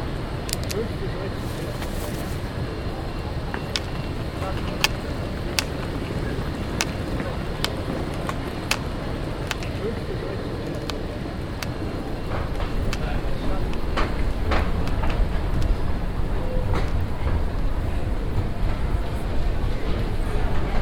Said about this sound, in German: Am Bahnsteig 2 fährt gerade die U2 Richtung Messestadt München ein.